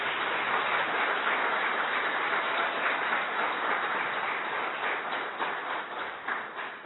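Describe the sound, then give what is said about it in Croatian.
Dense audience applause at a public gathering in Herceg Novi, honouring professors dismissed over the Serbian language. Many hands clap in a steady, unbroken wash that holds its loudness and eases off slightly near the end. “Pored njih su u publici takođe i mnogi drugi profesori koji su takođe dobili otkaz zbog srpskog jezika i molim vas i za njih još jedan aplauz.”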